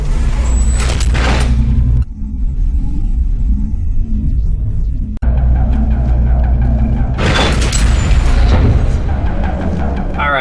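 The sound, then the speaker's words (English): A video-game elevator going up gives a loud, continuous low rumble with mechanical grinding, swelling into two heavier bursts of noise near the start and near the end, with no voices. “Up the elevator we go.”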